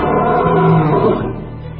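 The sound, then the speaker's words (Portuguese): A lion roars in one long, deep, rumbling growl that swells and then slowly fades, used as a sound effect in a story about a lion killing a man; no voices are heard. “de perto de mim, um leão vai matá-lo. E logo que o homem saiu, um leão veio e o matou.”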